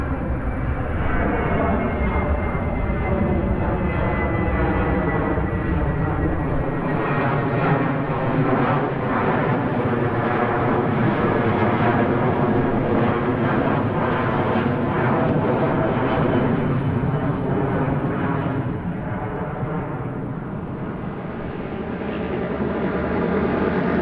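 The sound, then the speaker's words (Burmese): Steady, loud roar of an airplane's engines as it descends slowly and touches down gently on a runway. The broad, continuous rumble holds throughout, with a deeper low-end layer entering partway through. “တဖြည်းဖြည်းချင်းဆင့်သက်ရင်းနဲ့တီတီငိမ့်ငိမ့်ညင်ညင်သာသာနဲ့ပြေးလန်းကြောင်းပေါ်ဆင်းသက်လာပါတယ်။”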